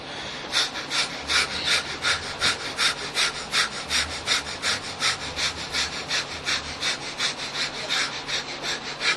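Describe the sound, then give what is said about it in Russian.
Forceful rhythmic breathing from a deep breathing exercise: many quick, rasping breaths in a steady, rapid pulse, fairly faint, with no talking. “It's like this. You breathe like this. Вы дышите вот так. Okay, you see. Видите, да, вот так дышать.”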